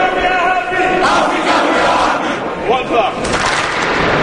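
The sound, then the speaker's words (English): Sixty teenage basketball campers give a thunderous welcome to NBA coaches and players on their first day at camp: a loud, sustained roar of young voices cheering and shouting, with a few higher whoops cutting through. “The 60 teenage players give a thunderous welcome to the NBA coaches and players on their first day at the camp.”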